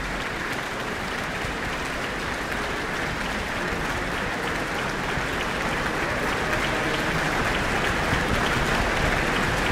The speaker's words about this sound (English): And there's a very appreciative audience who have called music director Giordano Ballincampi back to the stage, and he is, of course, acknowledging the orchestra.